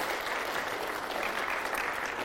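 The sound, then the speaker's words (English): An audience claps in church during a Sunday service, a dense, continuous wash of many hands that stays steady and loud throughout with no voices standing out. “Let's clap to the Lord for His greatness and faithfulness today.”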